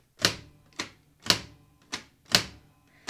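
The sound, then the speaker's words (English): Heavy mechanical key strikes of a German World War II Enigma cipher machine are typed one letter at a time: about six sharp, clacking presses at a steady, unhurried rhythm, each ringing briefly before the next. “Now, this is the strength of the Enigma code. This is why the Germans during World War II thought it was truly unbreakable. Because every time you type in a letter, like L,”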